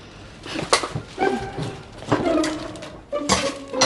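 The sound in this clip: Bowls and plates clink as dishes are washed, a few sharp, bright knocks with short ringing tones scattered over a low background wash.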